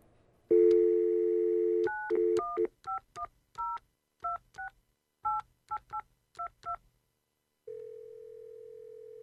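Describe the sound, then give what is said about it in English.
Telephone being dialed to call a dentist: a steady dial tone gives way to a rapid run of many touch-tone beeps in short groups, ending with a single long, lower steady tone. “Maybe I ought to call my dentist.”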